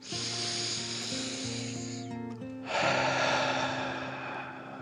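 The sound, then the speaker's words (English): A deep, slow breath is drawn in and let out, a long airy hiss in two stretches broken by a short pause, heard softly over steady sustained musical tones. “He took another deep dragon breath in and out.”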